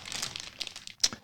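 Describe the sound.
Paper wrapping crinkles as a large praline is unwrapped, a quick run of crisp, rustling crackles that fades in the middle and then ends with a sharper, louder crunch.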